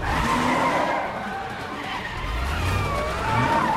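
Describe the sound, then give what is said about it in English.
A car roars past a streetcar in a loud, sustained engine rush with squealing tires, the noise swelling again toward the end. “A passenger filming them on his video as Danny overtakes the streetcar.”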